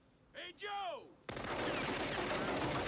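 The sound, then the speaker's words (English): Gunfire in a film scene as a man shoots wildly at another person: a shouted voice comes first, then a loud, dense, continuous burst of rapid shots runs to the end. “Okay, so we've established that he sucks at shooting. I mean, he just shot wildly at a guy.”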